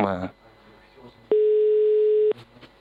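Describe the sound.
A single steady ringback tone from an outgoing phone call, mid-pitched, loud and lasting about one second, after a brief burst of voice at the start.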